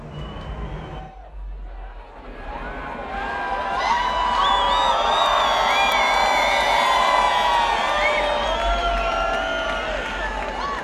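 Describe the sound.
A festival crowd cheers and whoops at the main stage of the Krone Hit Electric Love Festival, the roar swelling after a few seconds and holding loud and steady to the end.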